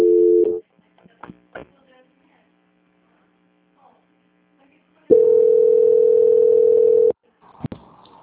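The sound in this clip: A telephone line plays a steady electronic tone while a call is being transferred: a brief tone first, then a longer tone of about two seconds, with faint clicks in the quiet gap between them.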